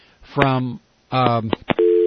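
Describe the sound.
A busy tone follows a dropped cell phone call. Voices talk briefly in two stretches, then a steady, level tone starts near the end and holds.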